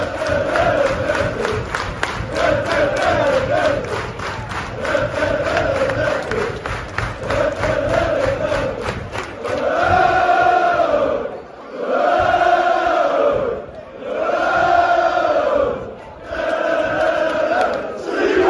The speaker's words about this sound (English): broke records for being the longest chant continuously sung throughout a game. Oh, I think it was the whole of the first half almost. Yeah, so you can listen to that right now.